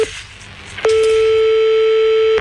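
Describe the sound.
After a call is cut off, a telephone line gives a busy tone. A single steady, mid-pitched tone holds for about a second and a half, following a short stretch of noisy hiss.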